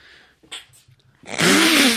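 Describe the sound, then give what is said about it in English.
A person sneezes: soft sniffing breaths build into a loud, breathy burst with a voiced tone that runs to the end. “That was the cutest sneeze ever.”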